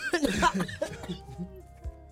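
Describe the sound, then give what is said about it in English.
A woman coughs and chokes in a few harsh, rough bursts, then the sound trails off into quieter, strained throat noise. “She choking. You all right?”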